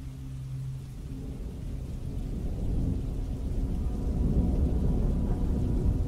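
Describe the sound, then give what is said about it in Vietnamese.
Thunder rolling in a storm over a river: low, continuous rumbling with steady rain hiss that builds slightly louder, no voices. “Trên thiên không, sấm sét đan xen chẳng chịt, như là tạo thành tấm lưới sét bao phủ lấy toàn bộ đoạn sông này.”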